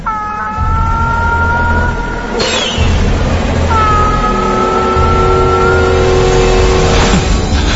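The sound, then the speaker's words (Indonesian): A car being driven, its engine giving a steady low rumble with whining tones that fade in and out. There are no voices. “Aku tetap fokus mengemudikan mobilku hingga di tengah-tengah aku fokus mengemudikan mobilku, tiba-tiba”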